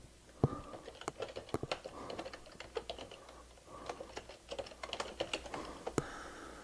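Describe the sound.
Typing Python code on a computer keyboard: many quick, irregular key clicks with short pauses and a few sharper, louder strokes, heard alone without voices.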